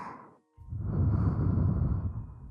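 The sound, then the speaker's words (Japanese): Soft breath blown into the listener's ear: after a brief faint breathy sound, a single long, steady whoosh of air rises and holds for about two seconds, gentle and close, with no talking. “ふうふうされるの好きなんだ。私みたいな子にでも”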